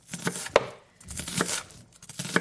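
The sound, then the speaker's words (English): Knife chopping a medium cucumber very finely on a board: a few crisp, irregular strikes in short bursts with quiet gaps between them. “And then you can add a medium cucumber. Now you're going to want to chop it really, really fine.”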